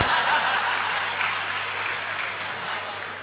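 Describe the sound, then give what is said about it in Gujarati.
Audience clapping at a Gujarati storytelling talk on the Ramayana: dense, continuous applause that starts strong and slowly fades. “આ તાળીઓથી વધાવો આપણી વાતો કરે છે.”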